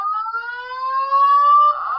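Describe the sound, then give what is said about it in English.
A hotel fire alarm going off: a loud, continuous electronic tone with bright harmonics that holds steady and unbroken throughout, with no voices. “the fire alarm went off.”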